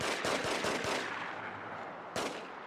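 Gunfire in a video game: a rapid cluster of sharp shots early on, then a short lull before one more crack, with no voices.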